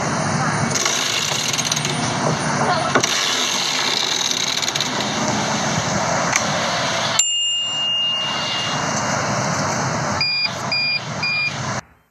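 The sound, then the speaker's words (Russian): Bicycle bell ringing during a city bike ride on a U-Bike: steady traffic and mechanical rolling noise fills the background while bright metallic rings come first singly, then several times in quick succession toward the end. “Неужели это велосипед?”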